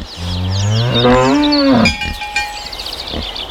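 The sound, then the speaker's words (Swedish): A cow moos in the living countryside of rural Skåne, Sweden: one long, loud, low moo that climbs in pitch before breaking off, followed by quieter outdoor background sounds. “ljudet av en levande landsbygd.”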